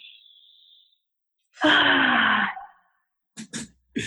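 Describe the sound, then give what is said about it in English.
A deep, voiced sigh-like breath taken as part of a guided breathing exercise: in through the nose and out through the mouth. One loud, breathy exhale stands alone, followed by a few faint, short sounds. “So breathe in through your nose. Out through the mouth.”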